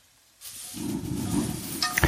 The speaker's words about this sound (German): Jetzt brate ich zuerst mal die Pilze an.